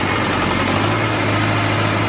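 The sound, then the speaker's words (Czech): Tractor engine hauling harvested cabbage heads to a shredding plant on a cabbage farm, a steady, loud, low rumbling drone with a constant hum and no change in pace. “Traktor odváží do krouhárny.”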